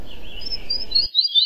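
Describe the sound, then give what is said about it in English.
High, thin chirping calls of a rufous fantail in a Guam forest: a few bright whistled notes, with a low rumble under the first second before the calls carry on alone. “which is the rufous fantail, and it likes to, it's called the follow me bird”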